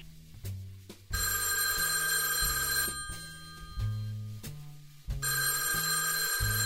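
A telephone rings in a few sustained, bright, buzzing bursts while people wait for an expected call. There are short pauses between bursts, and no voices are heard.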